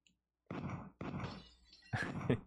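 Dull, crashing thuds as light-gun shots hit a box in a two-player video game. Three loud, blunt impacts come in quick succession, each with a short rattling tail.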